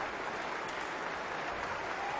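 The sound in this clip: A standing ovation follows a performance of Barber's Violin Concerto by a violin soloist and festival orchestra. The sustained, even applause from the audience is fairly faint and dense, with no pauses.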